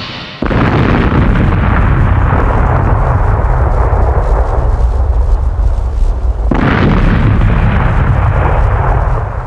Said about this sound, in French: The robot's electric discharge is going to detonate the fiber cord.